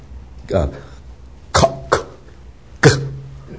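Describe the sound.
A voice makes four short, forceful throat bursts to demonstrate glottal plosive consonants in a pronunciation lesson. Each is a brief cough-like pop separated by silence, with the second and third close together.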